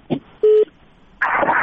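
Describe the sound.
A phone call connects to a radio call-in show: a brief click, then a single steady electronic beep, followed by hissing line noise.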